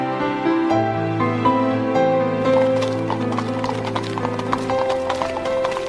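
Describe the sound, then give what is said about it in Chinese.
Hooves clip-clop as a horse-drawn carriage pulls up to a door. The steady clopping starts partway through and sounds over a continuous bed of music. “这时候门口来了一辆马车”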